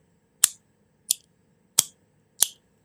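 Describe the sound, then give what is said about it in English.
A Grimsmo Saga Pin fidget toy is clicked four times, each a sharp, bright metallic snap that quickly decays, evenly spaced with quiet gaps between them. “I'm going to guess Grimsmo. It's the Grimsmo Saga Pin. Oh, you got a Saga Pin, yeah.”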